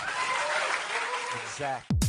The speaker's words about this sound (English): Let's get a round of applause for Superman.